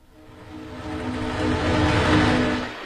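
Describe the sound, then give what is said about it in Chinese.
Low rumble of a passenger train heading back to Shanghai, a broad travelling roar that swells gradually through the middle and eases slightly at the end, with no talk. “803一行在取证之后乘上了返回上海的火车。”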